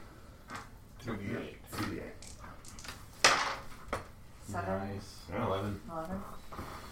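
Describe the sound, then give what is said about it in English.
Two eight-sided dice are rolled for damage in a tabletop role-playing game, making a brief clatter as people talk over it. “Alright, roll your damage. 2d8.”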